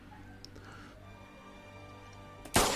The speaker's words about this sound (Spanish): Fue un tiro, ¿verdad? Sí, con, el Winchester.